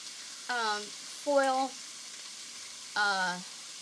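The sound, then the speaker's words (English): Food sizzles in a grill pan as a soft, steady hiss that runs the whole time, with three short tonal bursts rising above it. “Your grill pan? You're grilling them? I didn't know you could do that. Yep, you can.”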